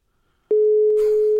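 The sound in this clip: A telephone ringing tone plays while a call is placed. It is one steady, unbroken low beep that starts abruptly after a soft click, with brief hiss and crackle partway through.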